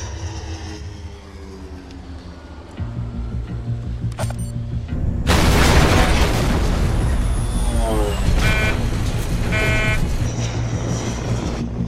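A sudden, loud blast of Semtex plastic explosive detonating bursts in about midway through. It follows a low, steady drone and is followed by a sustained, rumbling roar with scattered crackling debris that lasts to the end.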